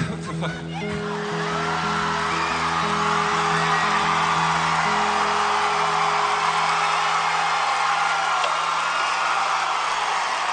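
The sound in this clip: A crowd yells and shouts at a singer during a performance, a loud, continuous roar that stays dense and steady through the whole stretch, with sustained low tones underneath.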